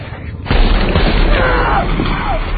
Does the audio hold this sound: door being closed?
no